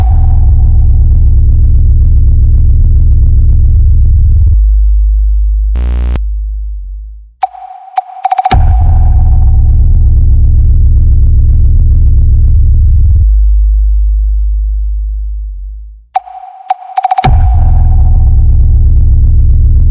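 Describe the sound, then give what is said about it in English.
Loud, heavy bass test tones for a sound check boom as sustained low drones that swell and then fade away twice, each broken by a short sharp chirp and brief high tonal sweeps. “Now, feel the bass, sound check.”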